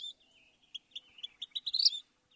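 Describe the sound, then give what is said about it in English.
Vermilion flycatcher calling: faint, high, thin chirps that begin spaced apart, then quicken and grow louder, ending in a brief excited stutter. “Even its scientific name, a title bestowed by sober museum experts, bows to its flash, Pyrocephalus rubinus, the ruby firehead.”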